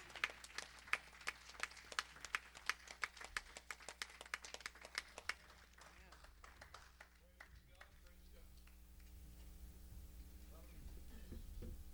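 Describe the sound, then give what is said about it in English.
Rhythmic hand clapping in a church service, a steady run of sharp, evenly spaced claps for about five seconds, after which the claps fade and a person talks. “Give that Waymaker a good hand clap.”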